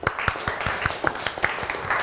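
Classmates applaud a student's presentation in a classroom with steady, rapid, fairly loud clapping that lasts the whole moment without a break.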